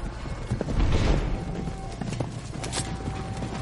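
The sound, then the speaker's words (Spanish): Hooves of several horses clip-clop as riders enter a courtyard at Ibelin, a dense, continuous patter of hoofbeats with no clear pauses. “En Ibelin varios jinetes entran en el patio.”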